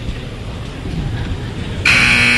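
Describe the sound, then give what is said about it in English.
Arena buzzer marking the end of a timeout at a college ice hockey game: a loud, harsh, sustained buzz cuts in near the end, over a steady crowd murmur. “There's the buzzer for the end of the timeout.”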